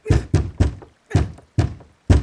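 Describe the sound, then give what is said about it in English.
Six heavy bangs on a locked gate door, dull low thuds struck in a quick run of three, then three more spaced out after a short pause, with silence between the blows. “It's impossible that there isn't a gatekeeper behind the door. Why on earth isn't he opening the gate? She bangs one more time,”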